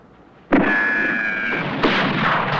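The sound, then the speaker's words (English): Booming gunfire from a powerful long-range rifle fired from a distant rock. A sharp, loud first shot has a long rumbling tail, and a second, softer report follows about a second later. “He sees the smoke from the powerful long-range rifle that's being fired at them.”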